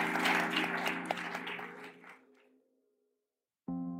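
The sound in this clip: Audience applause thanking a speaker after a talk, a dense wash of clapping that gradually thins and fades to silence before a brief musical tone begins.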